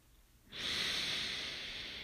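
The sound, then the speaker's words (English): One long, deep breath during a guided breathing exercise with eyes closed: a steady, airy hiss that starts suddenly and holds fairly loud to the end. “let's close our eyes and start taking some nice long deep breaths.”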